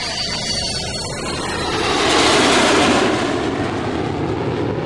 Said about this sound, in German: Da saß ich nun, zum ersten Mal in meinem Leben in einem Flugzeug und schaute aus dem Fenster.